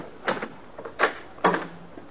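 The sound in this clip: A door is opened at a rooming house, giving a few short wooden clunks and rattles spaced across a couple of seconds, fairly quiet, with no voices.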